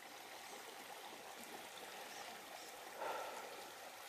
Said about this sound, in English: I don't know if you hear this river just politely flowing in the background.